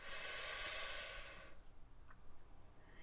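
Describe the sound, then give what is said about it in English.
A long, deliberate breath in through the nose and out through the mouth: a faint, airy hiss holds for about a second and a half, then trails off into near silence. “Ah, nice long exhale. Get all that gross air from the previous days out. One more time. In through the nose.”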